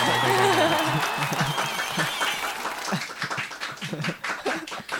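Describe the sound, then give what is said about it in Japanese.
Audience applause at a live comedy show: dense, steady clapping from a crowd that stays loud at first, then thins into scattered claps toward the end, with voices talking over it. “皆様からの魔法、拍手拍手”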